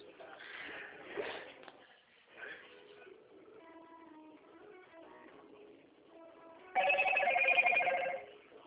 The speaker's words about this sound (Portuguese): Chegou um SMS aí no seu celular? Chegou.